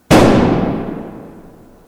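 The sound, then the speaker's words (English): A single gunshot: one sudden, loud crack that fades into a long, decaying rumble, with no voices. “He laughs and he shoots the old Inja woman in her head.”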